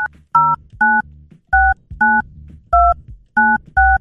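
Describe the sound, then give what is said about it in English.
Touch-tone beeps from a telephone keypad as a hotline number is dialed quickly, a run of several short, loud two-note tones in brisk succession with brief gaps between them. “Let me try and actually dial it quick enough to get it going.”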